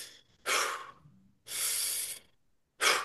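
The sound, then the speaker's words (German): Three slow, calm breaths are demonstrated one after another, each a soft, airy rush of air separated by brief pauses, with no talking. “vor solchen Sachen einfach zum Beispiel ruhig mal so atmen, kann helfen”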